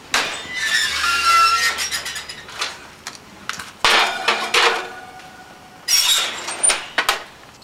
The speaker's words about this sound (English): And now I'm going to place it in the oven, 35 to 40 minutes, until it's lightly brown.